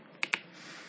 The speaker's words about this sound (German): Wir drücken wieder auf OK.